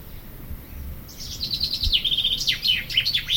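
Bird song: high, bright chirps begin after about a second and run as rapid repeated notes with swooping pitch, growing more lively over a faint low background.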